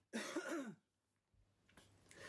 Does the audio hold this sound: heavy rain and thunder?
no